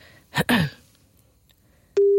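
Telephone ringing tone heard while dialing someone: a brief throaty vocal sound, a pause, then a steady single-pitched electronic tone that sounds without change to the end.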